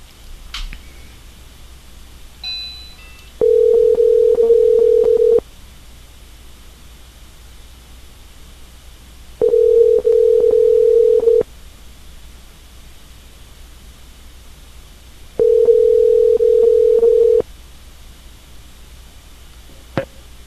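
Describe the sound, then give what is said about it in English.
Ringing tone of an outgoing telephone call being dialed: three steady, mid-pitched beeps of about two seconds each, separated by roughly four-second pauses, over a faint constant hiss. “Okay, I'm going to call my phone here.”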